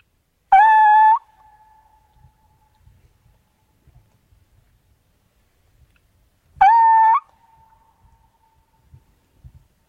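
Two loud owl calls sounded to lure males into answering, each a short harmonic hoot that rises and then holds, trailing into a long faint whistle. The calls come about six seconds apart over near silence broken by faint scattered clicks.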